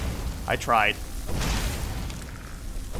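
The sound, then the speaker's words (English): Loud spell being cast in a fantasy video game set at the College of Winterhold: a short rising voice-like tone, then a broad, rushing boom that lingers before fading. “It's almost like the casting of the spell was too loud.”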